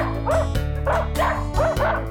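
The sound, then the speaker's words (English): A small dog barking in quick, yappy woofs, several sharp barks in an uneven rhythm over a steady low backing tone. “A dog says woof.”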